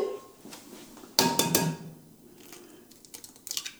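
An egg cracked into a mixing bowl while preparing a recipe: a sharp crack against the rim followed by brief rattling clicks, with a few small taps near the end. It is fairly faint overall, and no one speaks.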